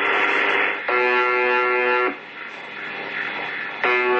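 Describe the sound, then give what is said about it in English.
Harsh, low buzzing tone from a Russian shortwave radio station known as the buzzer, sounding in bursts about a second long, broken by stretches of hissing static that stays underneath throughout. “The sound has been gripping the imagination of radio spotters worldwide for over three decades. The UVB-76, also known as the buzzer.”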